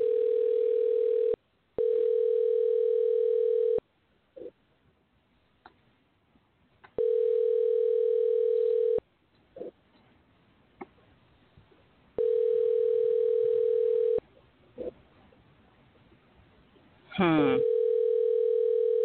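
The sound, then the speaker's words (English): A telephone call rings out unanswered. Several long, steady ringback tones of about two seconds each repeat with quiet pauses between them, and faint brief sounds fall in the gaps. “If I can get the number to work, we'll see if he's gonna call or if he's gonna answer. Okay. So here we go. Should be dialing.”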